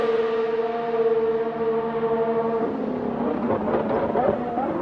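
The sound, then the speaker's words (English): A Formula 1 car with a Honda power unit downshifts: a loud, steady high-pitched engine whine breaks into a rough stretch of quick rev changes as it slows. “that Honda power unit just sounds amazing on the downshifts”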